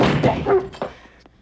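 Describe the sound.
A dog yips, barks and whimpers as a man fends it off while entering a room. The sounds come as short, loud, yelping bursts that fade at the end.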